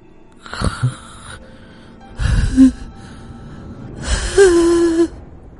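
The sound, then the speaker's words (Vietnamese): Raspy wheezing from a voice imitating an old man who wheezes like an asthmatic with his mouth gaping: three strained, breathy bursts, the last one longest and ending in a thin, high whine. “Lão rít như là người bị hen suyễn, mồm của lão há hốc cả ra.”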